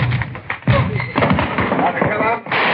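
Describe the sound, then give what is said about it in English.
Gunshots in a radio crime drama, fired during a police arrest: a few sharp, heavy thuds break through overlapping voices, loud and abrupt amid the talk. “Shots, Joe.”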